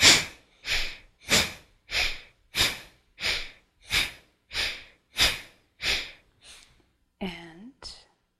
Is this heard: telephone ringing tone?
no